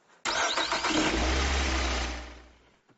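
A car engine starts with a noisy cranking burst, then catches into a steady low rumble that holds for about a second before fading out.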